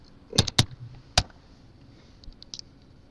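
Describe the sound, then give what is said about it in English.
Keystrokes on a computer keyboard: three sharp, distinct clicks close together, then a few fainter taps after a short pause. “I type about 30 words”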